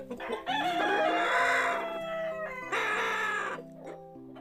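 A young rooster crows twice. Each crow is a long, raspy call lasting about a second or more, followed by a fading tail.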